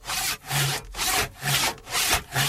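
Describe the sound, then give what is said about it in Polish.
A handsaw cuts through the lower branches of a Christmas tree in steady, rhythmic back-and-forth strokes, each one a rasping burst of wood noise, repeated many times without pause. “Zwariowałeś! Choinkę piłujesz! Te dolne gałęzie tylko.”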